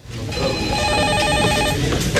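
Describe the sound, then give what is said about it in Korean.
A telephone rings at a desk in a bank office early in the morning, with a steady, trilling electronic ring that runs almost the whole time at an even, fairly loud level, with no voices. “그러던 어느 날 아침 일찍 출근해서 자리에 앉아 있는데 전화가 걸려왔습니다.”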